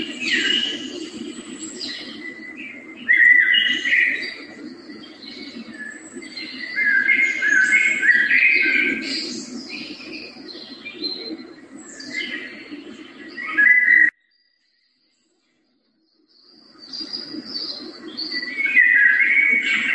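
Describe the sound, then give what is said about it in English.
Early spring morning woodland ambience: many birds sing and chirp continuously in overlapping high trills and whistles over a steady low background, with a brief full silence near the end before the birdsong resumes. “A recording of early morning in spring, somewhere in some woods,”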